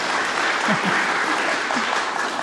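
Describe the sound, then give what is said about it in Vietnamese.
Applause from listeners at a Buddhist teaching session after verses are read aloud, a dense, steady clapping that stays even and fairly loud throughout. “Hay quá, vỗ tay.”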